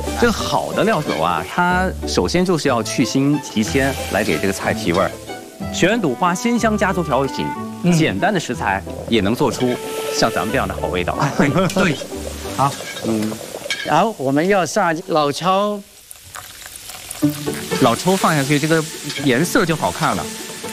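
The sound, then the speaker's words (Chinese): Loud, steady sizzling and stirring in a hot pan as cooking wine made from aged yellow rice wine with spices is added, continuing under people talking throughout, with a brief dip near the end. “现在我要加点那个料酒了。”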